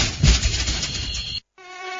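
Mosquito buzzing, a thin, high, droning whine that holds steady, cuts out abruptly for a moment, then returns as a cleaner, sustained tone with strong harmonics.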